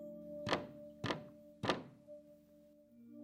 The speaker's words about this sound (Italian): Pietro non sente i tre colpi e le parole sussurrate alla porta